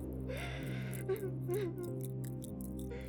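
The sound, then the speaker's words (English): Soft sobbing with whimpering catches and gasping breaths, fairly faint and broken into short uneven sobs over a steady tonal background. “It seems strange to say, but this sobbing sounds familiar.”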